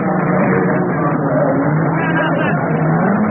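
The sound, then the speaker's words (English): Racing car engines roar continuously at the Le Mans endurance race, a loud, dense, steady drone with no breaks throughout. “Listen to the sound of Le Mans. The drama of the Daytona 24 Hour.”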